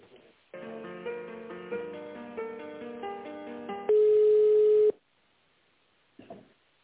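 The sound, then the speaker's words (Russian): Telephone line sounds while a call is transferred: a melody of simple electronic notes, then a single loud steady tone for about a second, followed by near silence. “минуточку, сейчас соединю вас с Натальей”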